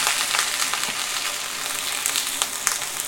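Eggs frying in a pan give a steady, crackling sizzle that stays fairly even throughout, with scattered sharper pops and spits and no voices.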